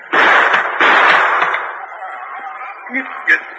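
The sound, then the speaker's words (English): Gunfire as a shot is fired to break the lock off a chest: a harsh noisy blast, then a second burst, fading into quieter small sounds. “Stand back here a ways and shoot the lock off”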